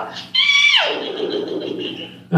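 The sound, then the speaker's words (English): Someone imitates a horse neigh, a high whinnying cry that drops sharply in pitch and trails off, followed by a short vocal sound at the end. “I like to give a little horse call here and there”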